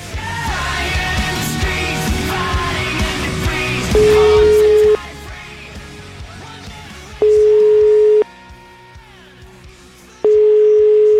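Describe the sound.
Telephone ringing tone on a line while a call is being placed: three even, steady mid-pitched beeps of about a second each, separated by quieter gaps, after a loud stretch of mixed background noise.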